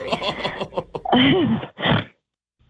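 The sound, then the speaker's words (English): A person's nervous snort: a few short, noisy nasal bursts with a throaty, laugh-like voiced edge, fairly loud, ending in silence. “sorry, I snort when I'm nervous.”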